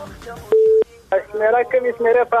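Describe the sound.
A single steady telephone keypad beep as a caller selects a number, lasting about a quarter second, followed by a person talking over the phone line.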